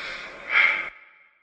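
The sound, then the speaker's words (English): Breathing in through the nose and out through the mouth during a calming exercise: a single soft, airy rush of breath that swells in the middle, then cuts off into a faint trailing hiss. “breathe in through nose, out the mouth.”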